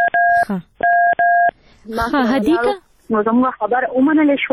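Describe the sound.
A telephone number dialed with DTMF tones: three steady, clean beeps in quick succession, followed by people talking.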